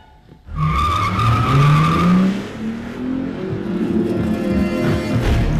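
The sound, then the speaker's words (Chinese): A car speeding away from a house, its engine revving with rising pitch and tires screeching, loud and continuous for several seconds. “杰尼开车离开了家，还把拿枪拦截他的乔尼撞到了路边。”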